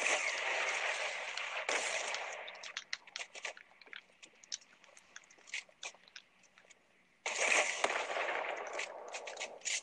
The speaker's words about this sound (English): Oh my god, he's just spamming the goddamn rocket.